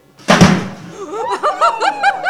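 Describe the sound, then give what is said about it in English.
A cannon loaded with a giant firecracker blasts in a single loud, sharp bang for a radio comedy sound effect, and a wavering voice cries out right after it. “Walter, what in the world did you put in that cannon? It was just sort of a giant firecracker, Miss Brooks.”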